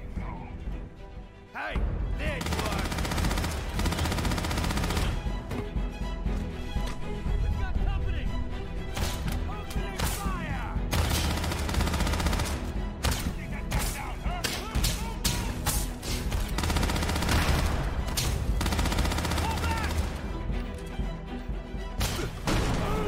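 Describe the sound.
Gunfire from first-person shooter video game footage shown at a summer games showcase. Many sharp shots, crashes and thuds land in dense, continuous bursts throughout, against a loud steady backdrop.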